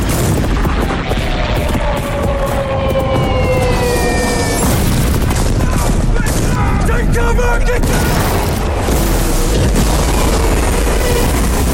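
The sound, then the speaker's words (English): Gunfire from guns in a film battle scene, with gunners firing too low: heavy booms and bursts over a dense, continuous roar, with whining tones sliding through the mix. “We need to get to the gun director. We're firing way too low.”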